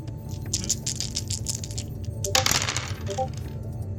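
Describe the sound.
Dice rolled across a table for a skill check in a tabletop role-playing game, a faint rattle of many small clicks with a brighter, denser clatter partway through.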